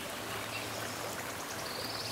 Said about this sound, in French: Et là, vous regardez l'eau couler. Elle coule au-dessous de vous.